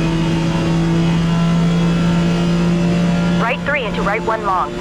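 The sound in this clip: A race car engine in the Forza Motorsport video game drones steadily at high speed, above 200 km/h, with no clear gear change, and a voice cuts in near the end.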